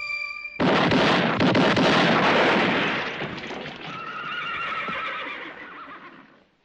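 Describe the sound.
A mule brays in one long, loud, harsh call that strains for several seconds and then eases into a more tonal, fading wail.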